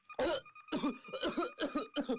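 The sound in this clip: Violent coughing from someone who has choked on a sip of tea: several harsh, raspy bursts in quick succession, each one loud and strained.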